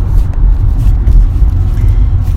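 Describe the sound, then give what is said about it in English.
A car driving along gives a steady, low road rumble that holds at a constant loud level throughout, with no voices. “So you'll see, we're just driving along.”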